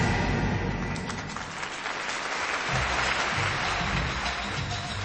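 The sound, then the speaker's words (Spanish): A studio audience claps in a large studio, a loud, dense wash of hands that stays strong and steady throughout with no break. “Suena las palmas del estudio mayor de Radio Espléndida.”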